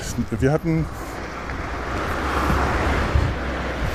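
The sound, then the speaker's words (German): Traffic from cars on a nearby street: a low, continuous rumble with broad road noise that swells gently midway, after a brief voice at the very start. “ich muss immer mal kurz aufhören, solange hier noch so viele Autos laufen. Ich glaube, in ungefähr 5 Minuten wird es leiser werden.”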